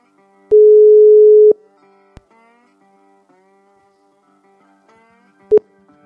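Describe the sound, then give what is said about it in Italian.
Ringback tone of a mobile call ringing out: one steady mid-pitched beep about a second long, a faint click, then a long quiet gap before the brief start of a second beep that is cut short. “E io apro il cellulare e lo vado a chiamare.”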